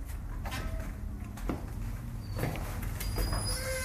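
A door is opened, heard as a few soft clunks and knocks over a steady background rush, with no voices.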